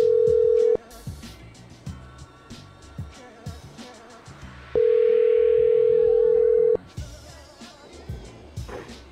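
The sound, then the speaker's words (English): A telephone dial tone after a call has been disconnected: a steady, flat electronic tone sounds briefly at the start, stops while people talk, then returns for about two seconds before cutting off again. “Ma'am, I think the line got disconnected there.”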